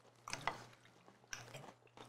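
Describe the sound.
Someone chews a purple eggplant, giving faint, crunchy bites and a few soft squishy chews at an uneven pace, with no talk over them.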